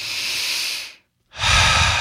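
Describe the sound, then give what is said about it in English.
A deep human breath, heard alone as two long, airy rushes of breath split by a brief silent pause. The second rush is fuller and lower than the first. “And now take a deep breath.”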